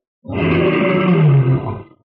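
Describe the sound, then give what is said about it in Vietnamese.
A single deep, loud roar of a white tiger, rumbling and growling for nearly two seconds before fading out, heard alone. “Con bạch hổ phía bên kia gầm thét, từ sâu trong dãy núi lao ra.”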